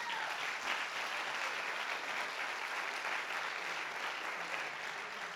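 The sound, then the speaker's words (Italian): Applause from a church audience at a Sunday gathering: dense, even clapping that holds at a steady level for the whole clip, with no voices standing out. “Facciamoci un applauso.”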